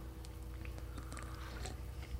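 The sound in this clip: Someone eats a yellow candy sprayed out of a can that tastes like candy corn. The chewing is faint and moist, with several small crunchy bites and no talking.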